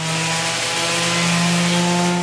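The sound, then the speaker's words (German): Tractor engine running while mowing a forage meadow, a steady, loud, droning hum with a strong low harmonic tone that holds without pause and without voices. “Ich bin Stefanie Peik und diesmal nehme ich Sie auf dem Traktor mit zum Mähen.”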